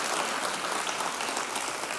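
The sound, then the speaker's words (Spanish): A church audience applauds together during a sermon. The clapping is a steady, dense wash of many hands that holds at an even level for the whole two seconds, with no voices standing out. “Vamos a una ofrenda de palmas todos juntos, querido.”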